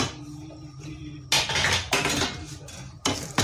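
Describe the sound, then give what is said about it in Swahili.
Clattering of a pot and utensils as coconut milk is added to a cowpea leaf stew and stirred, with a few loud, sharp bursts over a quieter background. “Naenda kuliweka kwenye ile mboga yangu ya kunde”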